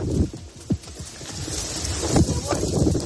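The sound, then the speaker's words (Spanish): Strong gusts of wind during an outbreak of wildfires, heard as rough, blustery rumbling that rises and falls, with a few sharper thumps where the gusts buffet the microphone. “Y como escuchas todavía con fuertes rachas de viento”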